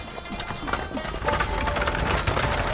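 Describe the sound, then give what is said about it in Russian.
A horse-drawn chariot approaches with hooves clip-clopping over rough, rumbling noise that grows louder partway through. “О, навстречу путнику едет повозка. Колесница.”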